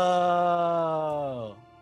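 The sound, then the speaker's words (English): A low, ghostly groan comes as one sustained, moaning tone that holds a steady pitch. It then sinks slightly in pitch and fades out at the end. “And then you hear a low, ghostly groan.”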